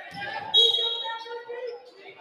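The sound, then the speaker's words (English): Basketball dribbled across half court by the Fort Madison team during a game, repeated bounces running under steady crowd noise and voices. “Fort Madison tries to dribble across half the court.”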